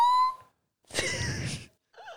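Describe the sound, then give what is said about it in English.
A person wheezing: a thin, whistling tonal breath, then a longer, rough, noisy breath, and a short, wavering, whistle-like sound at the end, with no speech. “Stop talking and listen to her wheeze.”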